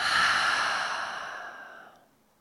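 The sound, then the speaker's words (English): A deep sighing breath: one long, airy exhale that starts full and strong, then gradually thins and fades over about two seconds, with no talking. “So let's do that, all of us together. Full inhale and exhale.”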